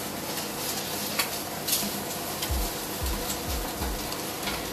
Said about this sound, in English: It looks like he's over here making his eggs now. He did say he was going to make an egg on top of the burger. And yeah. he said it was going to be sunny side up